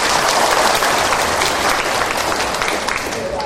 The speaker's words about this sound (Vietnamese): phải vỗ tay đi